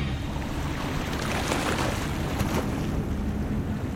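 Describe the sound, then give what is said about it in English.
A broad, steady wash of sea and wind noise surrounds the Japanese oil tanker MV Wakashio, sailing at 11 knots in calm seas near the coast of Mauritius. The loud, unbroken roar carries wind buffeting across the microphone throughout. “Aboard the MV Wakashio, July 25th, 2020. In calm seas, the Japanese oil tanker is sailing at 11 knots near the coast of Mauritius.”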